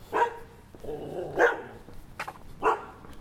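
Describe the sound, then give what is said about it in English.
Dogs barking in short, sharp bursts, three of them standing out clearly with softer noises between, loud and heard on their own without talk. “oh, that was like a jump scare, fucking dogs, mate, oh my god.”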